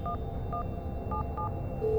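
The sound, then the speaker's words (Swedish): Telephone keypad tones sound as a worried partner dials a health advice line. Four short, faint dialling beeps come at uneven intervals, and a steady tone begins right at the end. “Din sambo är väldigt orolig och bestämmer sig för att ringa sjukvårdsrådgivningen.”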